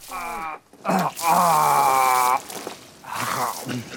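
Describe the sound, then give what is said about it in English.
Strained, voiced retching of a dog character projectile vomiting into a bush: long groaning heaves broken by short gaps, with a wet, gurgling edge. “Wilfred projectile vomits into a bush.”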